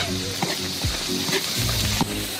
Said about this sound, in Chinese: 酱料炒香